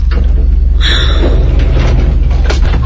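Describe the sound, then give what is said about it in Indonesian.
A lift's sliding doors close against a loud, steady low hum, with a brief higher whir as the doors start to move. “Aku pun menutup kembali lift itu.”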